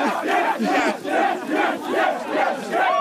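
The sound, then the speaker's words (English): A football crowd roars in jubilation after a first win in 15 attempts over Trent, with loud, sustained shouting and chanting that rises and falls in rolling waves. “The scenes here. It's the first win in 15 attempts over Trent. Oh, the crowd are going wild.”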